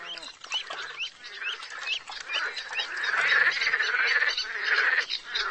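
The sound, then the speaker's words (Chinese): Tiger frogs calling wildly in warm weather, a dense, loud chorus of overlapping croaks and chirps that runs without a break and grows slightly fuller partway through. “在天气暖和的时候，虎纹蛙就会疯狂地鸣叫。”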